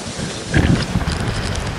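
Storm wind roars at sea aboard a sailboat in a gale of about 60 knots, a loud, dense rushing noise with a heavier gust swelling near the middle.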